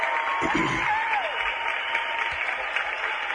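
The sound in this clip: Applause fills the whole short stretch as a steady, dense wash of many hands clapping, holding an even loudness from start to finish without a clear break.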